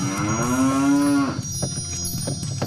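An ox named Nandivisala lows while pulling a hundred carts: one long, loud, low moo lasting over a second, then softer scattered knocks and rattles.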